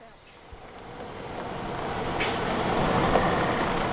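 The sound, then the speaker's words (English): A 2016 Freightliner Cascadia semi truck pulls into a gravel driveway in rural southeast Kansas, its deep engine rumble building steadily, with a short sharp air hiss partway through. “pulls a semi into the gravel driveway outside his house. It's a 2016 Freightliner Cascadia.”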